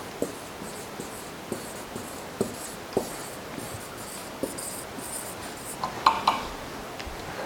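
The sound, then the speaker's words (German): Handwriting: a pen scratching out words, heard as faint, sparse scratchy strokes and a few soft ticks spread across the stretch, a little busier near the end, with no voices. “aber ich schreibe mal Zeichen und Wunder hin.”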